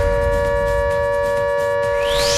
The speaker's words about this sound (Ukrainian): Ось таке нагадування пролунало від нашої автоматизованої системи оповіщення.